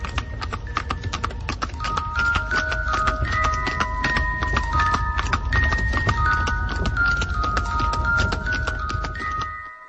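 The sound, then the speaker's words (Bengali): Clip-clop of horse hooves as a horse-drawn carriage pulls up beside a public graveyard in the evening: many sharp, steady hoofbeats sound throughout at an even loudness and end abruptly. “সাধারণের কবরখানার পাশে একটা ঘোড়ার গাড়ি এসে থামল।”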